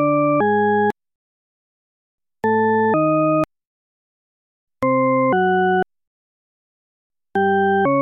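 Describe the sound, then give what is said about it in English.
Tritone paradox tone pairs: four pairs of steady, harmonic-rich synthetic tones, each pair two tones played back to back and separated by silence, loud and clear with no other sound. “What you're hearing is Diana Deutsch's tritone paradox.”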